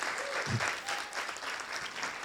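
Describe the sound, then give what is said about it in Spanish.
Applause from an audience at an evening gathering, a dense and continuous patter of many hands clapping at an even, fairly soft level throughout, with no talk over it. “Así que por ello yo les pido un fuerte aplauso también, que están entre nosotros.”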